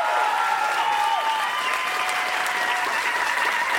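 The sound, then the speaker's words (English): A comedy show audience applauds a comedian with loud, sustained clapping from many hands. The sound forms a dense, even roar with no breaks. “Ladies and gentlemen, please have a huge hand for Mike Furman.”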